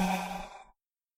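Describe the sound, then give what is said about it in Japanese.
A slow exhaling breath during a guided breathing exercise: one soft, airy breath out that starts fairly full and thins steadily, fading to silence in under a second. “吐いて、吐いて、”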